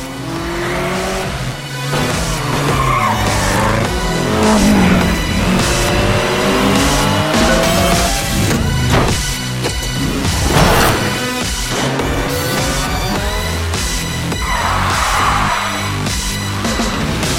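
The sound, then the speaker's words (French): Engines roar and tires squeal in a car racing video game set in a persistent open world, a loud, unbroken stretch of revving and skidding with no talk over it. “The Crew, un jeu de course automobile dans un univers persistant.”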